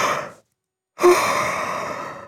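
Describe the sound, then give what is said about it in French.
A long, breathy yawn voiced for a cuddly toy at bedtime, a jaw-cracking stretch of a yawn. A short breathy trail fades out, then after a silent pause a soft voiced onset gives way to a drawn-out airy exhalation. “Tu entends? Toudou, mon doudou, bâille. Il bâille à s'en décrocher la mâchoire.”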